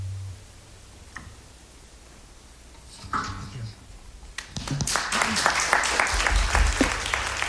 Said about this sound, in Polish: Oklaski niezbyt intensywne. No, wielu osób tam nie było w tej sali.